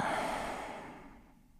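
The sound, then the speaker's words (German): A single long exhale out through the mouth during a guided breathing exercise, a soft, airy rush that is loudest at the start and fades steadily to near silence. “Und noch ein drittes Mal durch die Nase ein. Durch den Mund aus.”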